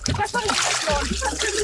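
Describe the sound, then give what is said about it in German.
Water splashes as a person slides down into a warm 28-degree swimming pool. A busy, sustained wash of splashing and sloshing fills the moment, with voices talking over it. “Ich rutsche runter ins 28 Grad warme Becken.”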